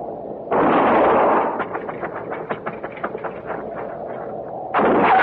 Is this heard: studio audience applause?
no